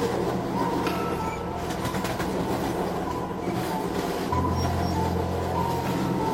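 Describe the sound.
An empty passenger train travels along the rails, giving a steady, loud rumbling roar with a faint metallic rattle. The low drone shifts to a deeper, heavier hum partway through.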